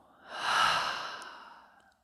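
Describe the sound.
A slow, breathy exhale during a breathing exercise. It swells over about half a second, then fades gradually for more than a second, alone with no talk.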